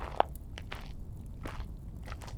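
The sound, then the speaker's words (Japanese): Soft, crunchy taps imitate footsteps walking toward the eardrum in an ASMR recording. A few faint, scattered clicks fall at uneven intervals, with one sharper tap near the start. “よし、気分がいいし、鼓膜まで歩いてみるか。”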